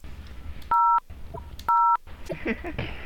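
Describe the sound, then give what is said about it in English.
Telephone keypad dialing tones entering a prepaid card number: two steady, evenly pitched beeps dialed slowly with a long gap between them, over faint background noise. “See how slow I have to dial it?”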